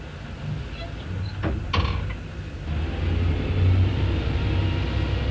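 A boat engine throttles up while leaving a canal where 20 to 30 boats are moored, a deep low rumble that swells louder through the second half, with a brief clatter partway through.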